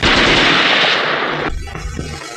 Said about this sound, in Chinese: 赶快出来！再不出来，我就开枪了。